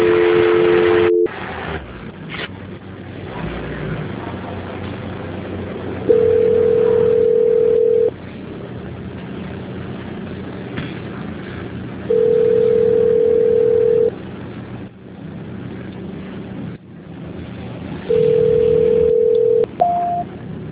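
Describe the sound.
Telephone line tones sound during a call transfer: three long, steady mid-pitched beeps come at even intervals, with a brief two-tone signal at the start and a short, higher blip at the end.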